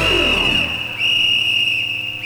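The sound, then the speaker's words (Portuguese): A referee's whistle for a football match gives one long, shrill, high-pitched blast that dips briefly near the middle and then holds steady. It is loud and stands alone, with no voices. “Apito árbitro da Eletrocasa!”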